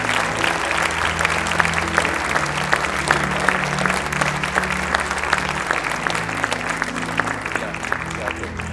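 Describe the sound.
An audience applauds to welcome two speakers on stage. Dense, steady clapping fills the whole stretch with a murmur of crowd noise beneath it.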